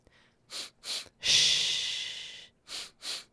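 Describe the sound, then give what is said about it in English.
Breath work exercise: two quick, sharp breaths, then one long, forceful exhale that slowly fades, then two more quick breaths, all heard alone with no talking. “What are you doing? I'm practicing my breath work.”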